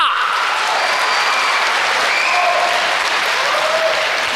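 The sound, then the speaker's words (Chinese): Audience applause at a live Chinese stage comedy performance, with dense, even clapping from a crowd that stays loud and steady from start to finish. “您的这个掌声太少了，掌声，掌声，掌声，掌声，掌声，掌声，掌声，掌声，鼓掌的全都发财了”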